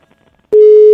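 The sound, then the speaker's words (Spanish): A telephone tone heard while dialing a call: after about half a second of near silence, a single loud, steady mid-pitched tone starts abruptly and holds to the end. “A ver, le estamos marcando a la tía Margarita.”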